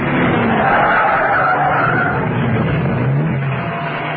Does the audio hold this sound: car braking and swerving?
yes